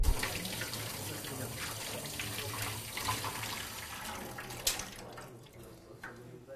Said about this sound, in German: Doch vor dem Füttern heißt es wie zu Hause Hände waschen.